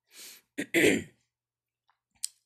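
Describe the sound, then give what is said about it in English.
A man clearing his throat in a few short, rasping bursts, the last and longest the loudest, followed by near silence and a faint click. “cleared his throat”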